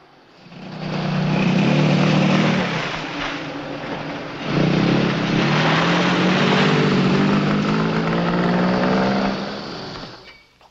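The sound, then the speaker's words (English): A car engine drones as the vehicle turns around on a garage forecourt, loud and continuous for about ten seconds, its pitch climbing through the second half before easing off at the end. “hurriedly turns the car around on the garage forecourt.”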